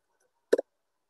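A single press of the Enter key on a computer keyboard gives one short, sharp two-part click in otherwise near silence.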